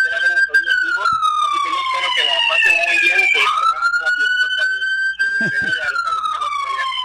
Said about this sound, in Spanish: ¿se oye durísimo esa ambulancia o qué? ¿Es una patrulla o qué?